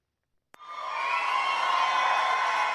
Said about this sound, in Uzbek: Janubiy Karolina shtatida milliarder tadbirkor Donald Tramp guldiroz qarsaklar bilan kutib olindi.